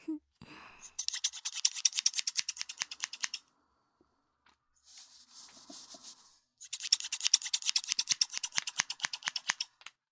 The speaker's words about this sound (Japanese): はーい、カットは終了。じゃあシャンプーで切った髪流しちゃって